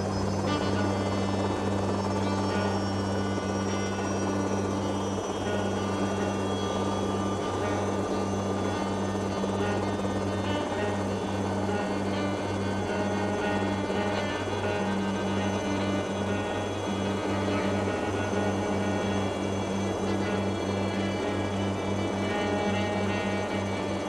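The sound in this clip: Helicopters in flight give a continuous, dense rotor roar that stays steady throughout. This is a string music piece performed with helicopters airborne, and sustained tones are blended into the rumbling drone.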